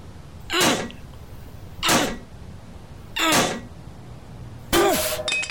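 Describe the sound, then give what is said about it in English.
Four harsh blows of a rock smashing an old lock, evenly spaced about a second and a half apart, the last one leaving a brief metallic ring. “Locked. What can I... Ah, this should do it. The lock's pretty old. Mr. Rock, say hello to Mr.”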